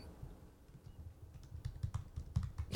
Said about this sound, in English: That is the sound of typing.